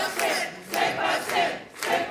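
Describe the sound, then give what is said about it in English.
A crowd cheers and chants at a Quebec separatist party on election night. The loud mass of voices swells and fades in four surges. “Celebrations at a party for Quebec separatists. They're watching election results come in on October 5th, 2026.”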